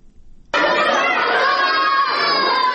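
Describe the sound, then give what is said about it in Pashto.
Schoolchildren shouting and playing during a mid-morning break at school, a dense, lively chorus of young voices that bursts in abruptly after a quieter moment and stays loud throughout. “د ورځې 10 بجې دي، ماشومان هم د تفریح په دې څو دقیقیز وخت کې لوبې کوي.”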